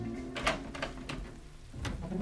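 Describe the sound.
A cabinet door being opened: a few short knocks and a light scrape stand out over a low steady hum.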